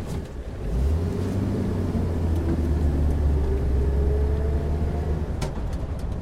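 A van drives along a road with a steady, deep engine rumble and continuous road noise that hold at an even level from start to finish.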